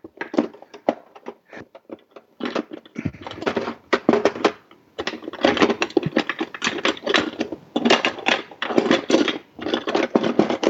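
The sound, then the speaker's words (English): A 6-in-1 jar opener clicks and clatters as it works the lid off a vanilla bottle, giving many sharp, irregular clicks in quick bursts with short pauses between them. “I'm getting my 6-in-1 jar opener out here so that I can get the lid off the vanilla.”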